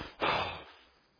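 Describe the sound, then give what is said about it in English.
A voice imitates a scornful snort with one short, breathy burst of air pushed through the nose. It swells quickly and trails away, quiet and alone. “and you snort out hatred against them?”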